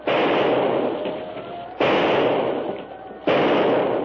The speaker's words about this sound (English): Shoot, Jeanette, shoot!